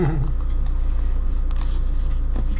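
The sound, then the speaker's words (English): Playing cards being gathered and put away at a tabletop roleplaying game session: a soft, continuous papery rustle over a steady low hum, with no clear separate events. “Almost done putting all your cards away.”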